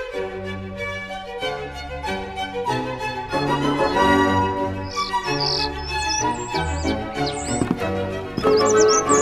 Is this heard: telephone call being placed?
no